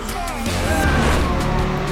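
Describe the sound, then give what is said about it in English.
Cars speed through a tunnel underpass during a chase, making a dense, loud roar of engines with a whining tone. The roar carries on unbroken for the whole clip. “The cars continue to speed under an underpass.”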